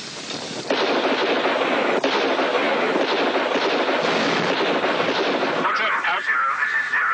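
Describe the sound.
Sustained heavy gunfire as soldiers shoot at attacking enemy targets from a defensive line, a dense, continuous, loud roar of overlapping shots with no clear gaps.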